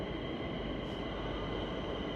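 A commuter train pulls into a station in Madrid with a continuous, broad rolling rumble and roar that stays steady throughout, without distinct separate events.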